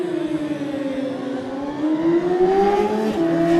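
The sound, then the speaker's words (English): A Suzuki racing motorcycle engine accelerates away during a motorcycle race. The loud, buzzing engine note holds steady, then climbs in pitch as the revs build, and no talk is heard. “65 is next, had a quick chat with him last night, Sam Johnson, on good form, hoping to get a lap in on this Suzuki this afternoon.”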